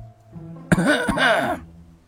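A man coughs once, a teacher in a classroom of students. The cough is a single sharp burst that runs into a short, rasping, voiced throat sound, heard alone.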